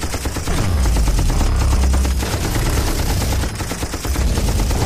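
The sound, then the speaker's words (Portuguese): Dense, loud automatic gunfire from the arm-mounted guns of a giant combat robot, a rapid unbroken barrage that continues for the whole stretch with only a brief dip in intensity near the end. “O Mecha começava a alcançá-lo. Ele se virou, ficou sob um joelho e atirou com um rifle. Não adiantava em nada, pois o robô parou, estendeu os braços e atirou.”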